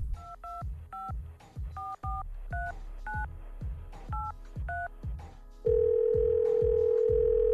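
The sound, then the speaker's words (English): Telephone keypad tones ring out as a number is dialed: a quick run of short two-pitch beeps, then a continuous steady tone, all over a low, regular thumping beat. “So let's dial a number.”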